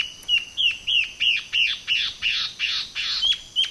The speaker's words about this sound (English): When male and female ant birds are a happy couple, they sing a duet.